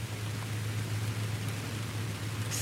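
Rain falls outdoors as a steady, soft, even hiss with no clear individual drops, above a constant low hum.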